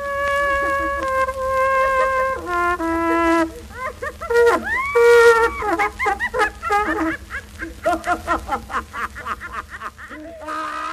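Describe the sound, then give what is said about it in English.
A cornet plays a few sustained notes before being cut off by hysterical laughter from a woman, then a man, on an early OKeh laughing record made in Germany and released in 1922. Choppy bursts of laughter continue to the end. “It was recorded a few years earlier in Germany, and it's the sound of a cornet being interrupted by a hysterically laughing woman who is joined by a hysterically laughing man.”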